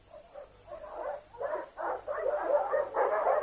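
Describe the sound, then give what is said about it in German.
Dogs barking in a steady series of yapping bursts, one after another, growing louder toward the end, with no voices over them. “Gebell? Ich hab's die ganze Nacht gehört, mein Guter, von Kammer zu Kammer. Einmal ferner, einmal näher.”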